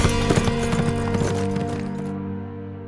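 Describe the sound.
Rapid hoofbeats of a horse galloping with a rider out of a canyon and across flat ground at night. The rhythmic clatter is strongest at first and fades toward the end.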